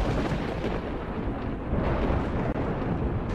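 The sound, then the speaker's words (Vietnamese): Thunder from a lightning bolt striking a house during a storm: a dense, loud, continuous rumbling roar that fills the whole clip without letup. “Cụ vừa dứt lời thì lại thêm một tia sét nữa giáng thẳng xuống nhà của ông.”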